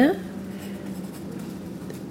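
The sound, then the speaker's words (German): Pen scratching on paper in a steady, faint rasp that runs for about two seconds with no distinct strokes, after a brief tonal sound at the very start. “Was schreibst du denn da?”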